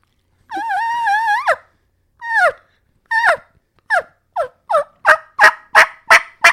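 Hen turkey yelps made on a diaphragm call: one sustained, steady tone, then a series of short yelps that come faster and grow louder and harsher toward the end, with no talking.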